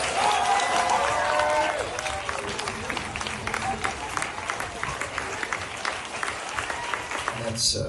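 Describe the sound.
An audience applauds to welcome Martin Scorsese with steady, dense clapping that lasts throughout. A voice is briefly heard at the start.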